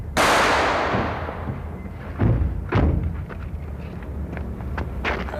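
Gunshots fired by a man holding out against police in a shootout: a heavy booming report with a long decaying tail, then two sharper cracks and several fainter impacts.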